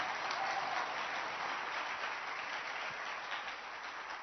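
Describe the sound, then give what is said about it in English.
Steady, dense hand clapping from a church audience at a gathering in Koforidua, welcoming a visiting pastor; fairly faint, with an even roar of claps throughout that eases slightly toward the end. “Clap your hands and let's receive him.”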